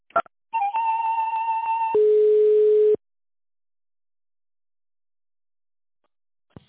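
A telephone line gives tones while a call is being transferred: a few clicks, then a steady higher tone lasting over a second, then a lower steady tone for about a second. After that the line falls silent.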